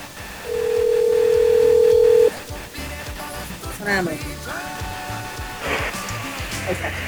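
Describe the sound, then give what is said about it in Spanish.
A telephone call rings out: one long, steady electronic tone of about two seconds at moderate loudness, then stops as people start talking. “Pues vamos a hacerle una más. Una llamada más.”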